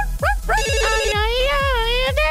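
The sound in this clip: A melodic electronic ringtone signals an incoming call: bright, sustained harmonic tones step through a tune over a steady pulsing low beat, loud and continuous.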